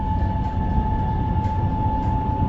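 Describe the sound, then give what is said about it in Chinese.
Metro Line 1 train bound for Fujin Road running, with a steady, loud rumble and a constant thin whine held above it through the whole stretch. “欢迎乘坐一号线，本次列车开往富锦路。”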